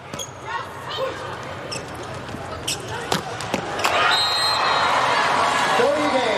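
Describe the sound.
Volleyball serve in a match between China and Turkey, with a middle blocker serving: a couple of crisp ball strikes stand out over a steady crowd murmur while a commentator talks throughout.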